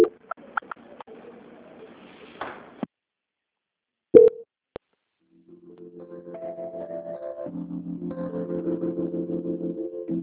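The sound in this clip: A telephone line tone plays during a call transfer, entering after a few sharp clicks. It is a rapid, regularly pulsing tone that swells gradually and keeps repeating to the end.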